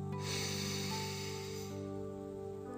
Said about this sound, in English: drawing in through the nose with a squeeze of the pelvic floor, pausing at the top, exhaling with a tone, breathing in together now